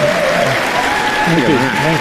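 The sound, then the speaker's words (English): Dense, steady applause from the audience at the honorary award ceremony of a film festival in Cannes. A voice talks over the continuous clapping. “Isn't that applause just incredible?”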